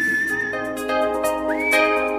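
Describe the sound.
Whistled melody in a pop song: a clear, bright whistle carries the tune with a quick upward slide, over backing instruments and regular percussive beats.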